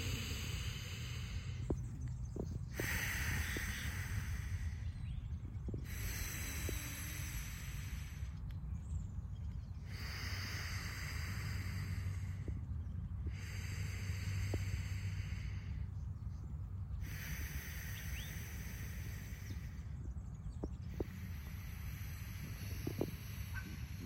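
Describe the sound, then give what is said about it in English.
Slow alternate nostril breathing during a stillness meditation: soft, airy nasal inhales and exhales repeat many times in an even, unhurried rhythm, with no talk. “So what we're going to do, we're going to breathe in this nostril. So out this nostril. In this nostril.”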